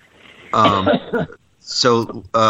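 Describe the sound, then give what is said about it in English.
Throat clearing and coughing come as a few harsh, voiced bursts broken by brief pauses, fairly loud and rough-toned, with the last burst cut short at the end. “Hang on. Let the throat settle down.”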